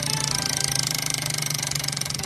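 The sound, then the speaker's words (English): Fast, even ticking of a prize wheel spinning on a computer: many rapid clicks in a steady clattering rhythm that holds throughout, with no voices. “get on the computer because it's time to spin the Wheel of Long Songs”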